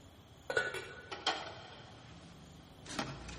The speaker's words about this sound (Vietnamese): Đó là tiếng cái nắp nồi bằng inox nó rớt xuống đất. Nó cứ xoay tròn, xoay tròn, xoay tròn thật lâu.